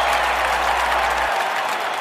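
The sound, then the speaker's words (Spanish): Sustained crowd applause for the banda El Recodo de Don Cruz Lizárraga, a steady, dense wash of many hands clapping at an even loudness throughout. “Y yo quiero pedir un aplauso para la gran banda El Recodo de Don Cruz Lizárraga.”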